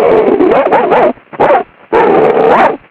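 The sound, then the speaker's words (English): A person imitates a dog barking and whimpering in three voiced bursts: a long one, a short one, then another long one, each with a yelping, dog-like pitch. “so I decided to bark a little bit”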